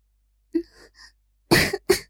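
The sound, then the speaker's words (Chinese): A woman coughs lightly twice with a slightly hoarse voice: two brief, soft, breathy bursts, the second quicker and close after the first, in an otherwise quiet clip. “紫幽兰轻咳了两声，声音中似带着些许嘶哑”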